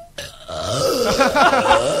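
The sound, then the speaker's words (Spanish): A single long, loud burp, deep and croaky with a rough, gurgling texture, lasting well over a second. “¡Gases! Es Amy Winehouse eructando.”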